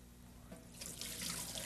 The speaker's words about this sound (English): Let's put that water in and show you.